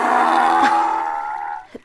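A donkey brays in one long, loud, harsh tonal call that holds steady and then slowly fades out.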